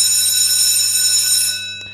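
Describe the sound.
A school bell rings with a loud, continuous, steady metallic tone for nearly two seconds, then cuts off abruptly.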